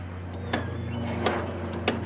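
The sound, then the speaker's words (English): A steady electric hum comes from the wing flaps of a light aircraft being lowered with the control between the seats. The drone holds an even, low pitch, with three sharp ticks spaced across it. “Now we're going to check the flaps, which are going to give us lift when we come into land. So between the seats and just lower the flaps.”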